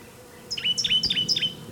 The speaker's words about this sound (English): Orange crown warbler in the background.